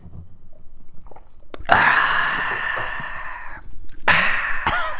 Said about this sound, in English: Hope people listening like us making mouth sounds.